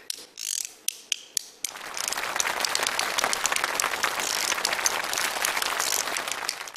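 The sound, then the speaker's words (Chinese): Shouyuzi, a pair of small bamboo clappers, gives a few sharp, evenly spaced wooden clacks, then breaks into a long, dense burst of rapid clattering. “手玉子，就两个小竹板儿。你看上面什么？ 能打响吗？”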